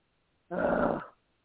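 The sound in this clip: A dog growls at an animal outside in the pitch-black night, one rough, noisy burst lasting about half a second, heard alone without any talk.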